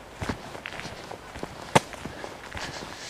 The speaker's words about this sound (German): Mein Gefühl ist auf jeden Fall, dass ich hier auf einem sehr, sehr alten Weg laufe.